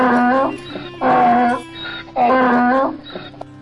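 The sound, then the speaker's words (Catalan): An animal roar or bellow rings out in a forest. It comes as three drawn-out, harmonic, moaning bursts, strong and rising and falling, separated by brief pauses. “Tot d'una, senten un bramo que els espanta.”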